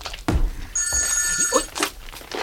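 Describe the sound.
A telephone bell rings in one sustained, bright metallic burst, with a few dull thumps and low rustling around it.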